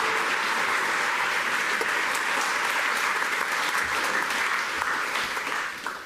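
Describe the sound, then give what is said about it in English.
Audience applause greets a speaker coming up to the stand. Dense, even clapping holds steady for several seconds before dropping off at the very end. “So guys, give it up for Doug as he comes up here today.”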